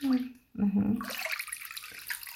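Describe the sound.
Water splashing as someone is washed; a voice speaks briefly at the start, then a soft, steady wash of running, sloshing water continues.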